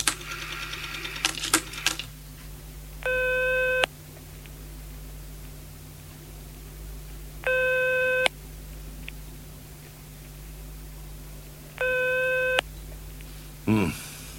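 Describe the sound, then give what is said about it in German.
A telephone busy tone follows a dialed call: three steady, moderately loud tone bursts, each just under a second, evenly spaced about four seconds apart over a low hum, with brief clattering clicks at the start. “Ich muss sofort anrufen.”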